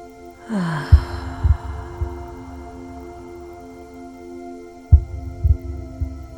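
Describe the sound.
A slow breath exhaled through the mouth during a breathing exercise: a soft, airy rush that fades over a few seconds, over a steady low hum and groups of soft, low thumps.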